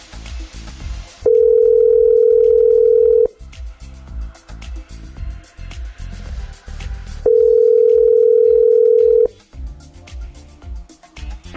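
Telephone tones sound while a call goes out to the listener of the day. Two long, steady, loud tones last about two seconds each, with quieter background sound between and around them.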